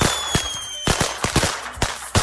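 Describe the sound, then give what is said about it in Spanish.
Firecrackers, bombas and triques, going off for New Year celebrations: a string of sharp, loud bangs at irregular intervals, each a short crack that dies away quickly. “Ahí está, miren, hombre, bomba y trique y todo lo que sea.”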